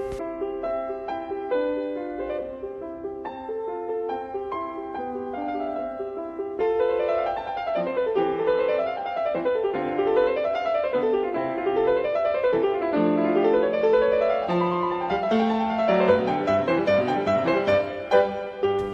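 A solo piano plays a classical sonata: a gentle, light opening gives way to fuller, flowing passages of rippling arpeggios that rise and fall steadily, with no voices.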